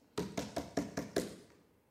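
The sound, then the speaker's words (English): Six knocks on a door come in an even, fairly quick rhythm. Each is a sharp, hollow rap with a short decay, fairly quiet and with no voices. “So you go to him and say, friend, you knock on the door.”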